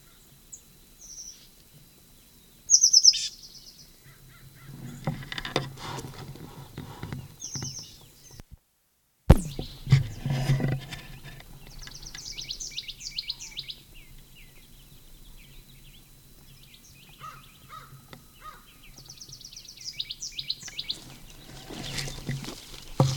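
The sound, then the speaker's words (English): A bird calls at Upper Moline Gulch in a few short, high chirped phrases separated by long quiet gaps. Soft low rustling and handling noise come in between. “Upper Gulch bird.”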